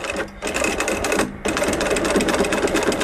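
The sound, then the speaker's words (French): A sewing machine stitches a strap with a quick-release buckle using thick thread, its rapid, dense mechanical chatter running steadily, with short pauses near the start. “Là, actuellement, je suis en train de coudre une sangle avec une accroche rapide. Le fil, il est assez épais.”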